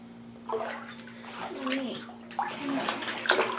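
Water splashing and sloshing as a person is washed in a tiny bathtub, with soft irregular splashes and swishes over a faint steady hum.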